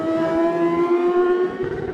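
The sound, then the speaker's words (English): A Kawasaki ZXR 750 racing motorcycle engine bounces off its rev limiter, holding a loud, steady, high-revving tone that stutters slightly near the end. “Just hitting the rev limiter there for Jamie Coward, another Greenhill Racing Kawasaki ZXR 750”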